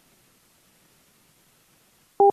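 A short dual-pitched telephone beep sounds on the line after the caller hangs up. It follows a near-silent stretch and cuts off abruptly at the end.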